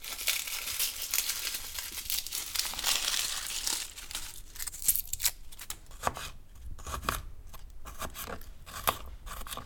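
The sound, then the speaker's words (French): Garlic cloves being peeled and chopped: soft papery crinkling and tearing, then many short, sharp cutting ticks in an uneven rhythm. “On a besoin de 4-5 gousses d'ail qu'on va aussi éplucher et découper.”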